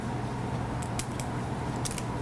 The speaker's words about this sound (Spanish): Cortamos la langosta y la sacamos de su carapacho.